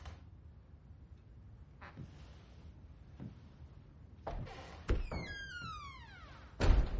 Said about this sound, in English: He pushes himself up and opens the front door.